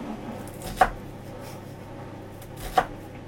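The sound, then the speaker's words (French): A knife cutting through an onion, two crisp separate chops against a board with a quiet pause between them, no talking. “C'est des oignons coupés. Est-ce que déjà tu te dis, tu vois, ça prend pas longtemps. J'ai coupé un oignon.”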